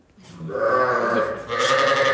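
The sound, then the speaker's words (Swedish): Sheep bleat on a farm in Ånge, Sweden: a couple of loud, wavering calls, the first long and harmonic, the second brighter and rougher, with no talk over them. “Ja, fåren bräker här på Strömmens gård.”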